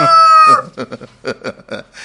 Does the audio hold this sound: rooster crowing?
yes